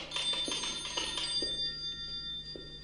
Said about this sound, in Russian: Звонок прерывает ее раздумья.